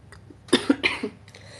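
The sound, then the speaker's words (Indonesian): A person coughs in a quick cluster of about four dry, husky bursts, with a short pause between each and quiet before and after. “Aku masih agak sedikit batuk, cuman kayak udah mendingan banget. Jadi batuknya tuh nggak kayak konstan cuman sekali doang.”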